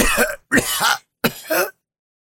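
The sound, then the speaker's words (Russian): A man coughs in three harsh, throaty bursts separated by short gaps, with no other sound around them. “Лун Тяньжэнь вновь зашелся кашлем”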